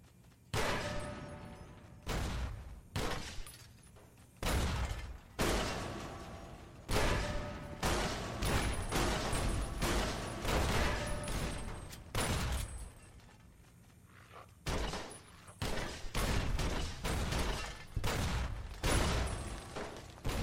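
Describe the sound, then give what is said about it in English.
Timed grenades explode in a video game: many heavy, booming blasts in quick, irregular succession, some overlapping, with short lulls between clusters and a loud, dense burst of detonations near the end. “would be a good place for some timed grenades because I can just lob them in from. This side of the. Yeah, this should work.”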